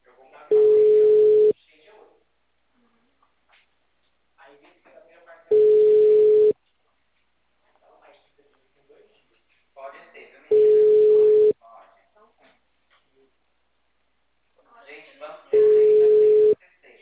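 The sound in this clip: While a call is being placed, a telephone ringing tone sounds as four steady mid-pitched beeps, each about one second long and spaced evenly about five seconds apart. Faint talking fills the gaps between beeps.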